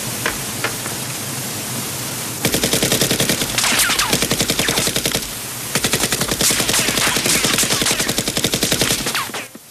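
Machine-gun fire in an action film scene near a waterfall: two long, loud, rapid bursts of automatic shots, each lasting several seconds and separated by a brief pause.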